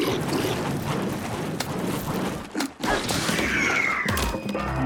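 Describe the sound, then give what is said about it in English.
Video game combat as a two-handed claymore spin attack lands after a sneak kill on a scout: loud, dense whooshing and crashing impacts with a brief dip in the middle, then a rough swishing sweep. “let's do a full spin attack with the two-handed claymore that we just got.”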